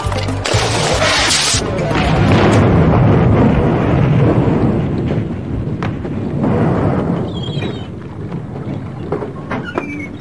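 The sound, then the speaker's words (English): A rocket launcher fires at a houseboat and explodes: a sharp, bright blast opens, then a sustained, heavy rumbling roar carries on to the end. “I got a rocket launcher that says, watch this.”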